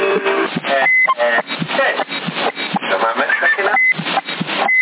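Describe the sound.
A CB radio roger beep sounds on a channel around Sassari: two short, high, steady beeps, each cutting in briefly amid continuous band-limited radio speech from people talking over the channel.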